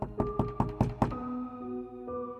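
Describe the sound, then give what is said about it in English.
Forceful knocking on a wooden door comes as a quick, even run of several sharp raps within about a second, followed by a low, steady humming tone. “And then, once again, a knock.”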